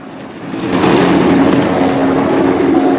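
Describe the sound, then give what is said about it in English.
A black police helicopter gives off a loud, steady engine-and-rotor drone with a low sustained hum. The noise builds over the first second, then holds continuous and even. “Beside a black police helicopter with a big white 3 on the side, Remy smokes a cigarette.”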